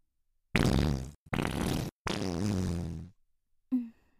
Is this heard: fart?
yes